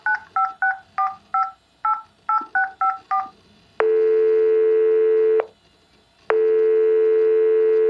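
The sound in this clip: A telephone number being dialed on a keypad: a quick series of short paired tones, followed by two long steady tones with a pause between them, with no talking.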